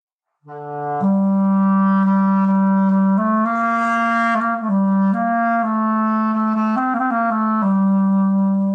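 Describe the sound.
Reed wind instrument played in one long, steady breath without tonguing. A rich, reedy tone sustains and slides smoothly through several connected notes, flutters briefly near the end, then settles back on the low opening pitch. It plays alone.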